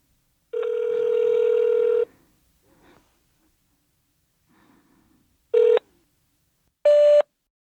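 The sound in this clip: Phone tones sound as a number is speed-dialed for a call. A steady tone lasts about a second and a half, followed by faint soft clicks, then two short beeps, the second higher in pitch.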